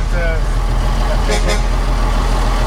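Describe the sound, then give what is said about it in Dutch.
An old vehicle's engine rumbles with a steady, loud low drone as it drives slowly in a convoy out of Emmen. “Ja, we rijden nu langzaam Emmen uit.”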